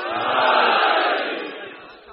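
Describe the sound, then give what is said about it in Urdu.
A crowd roars the religious slogan "Ya Ali" in unison, a loud, dense mass of voices that swells early and holds before tapering off near the end. “بولو ہاتھ ملا کر کے نعرہ ہائے علی.”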